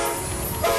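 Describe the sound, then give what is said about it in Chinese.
A China-Europe freight train departing: a loud, continuous rumble with a steady horn-like tone through the whole short burst. “这是中欧班列出发的声音，”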